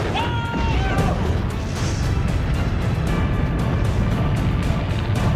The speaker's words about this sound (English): he's gonna hit. There goes the rockets.